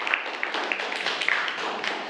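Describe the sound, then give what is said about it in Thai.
Students in a classroom clap for themselves, a light patter of many hands with a few sharper claps standing out, fairly quiet and steady. “ปรบมือให้กับตัวเองนะครับ”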